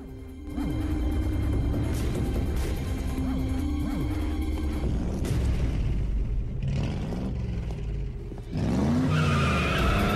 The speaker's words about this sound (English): The car makes a U-turn in the street and follows him.